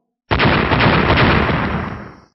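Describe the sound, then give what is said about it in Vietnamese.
A loud explosive roar as a thunder orb collides with a flame blade in a fantasy battle. It bursts in abruptly and rumbles as one sustained, heavy blast that fades away over about two seconds. “Lôi cầu và diễm đao va vào nhau, liền liên tiếp truyền ra tiếng nổ long trời lở đất”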